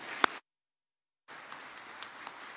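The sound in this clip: Applause welcomes a speaker onto the stage at a CFC event. A short burst comes first, then a silent gap, then a steady wash of clapping from the crowd.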